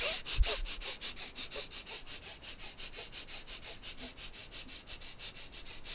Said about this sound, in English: And now we're going to spin the throat chakra. Breath of fire.